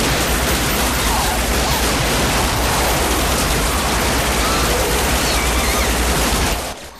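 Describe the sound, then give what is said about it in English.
Gunfire sound effect of several men opening fire on a vampire inside a room, a loud, dense, unbroken barrage of rapid shots lasting about six and a half seconds before cutting off abruptly. “The man succeeds in throwing her off and the rest of the men open fire on her.”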